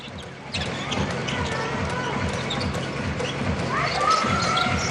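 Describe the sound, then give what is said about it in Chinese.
A basketball bounced in the backcourt during a game gives rhythmic low thuds at an even pace over crowd murmur, with a few sneaker squeaks near the end. “张玉兰在后场先控制一下球，”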